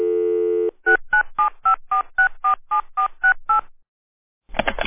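A steady telephone dial tone gives way to eleven quick touch-tone beeps as a number is dialed, each short tone evenly spaced, followed by silence and a brief buzzy burst.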